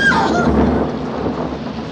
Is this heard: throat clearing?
no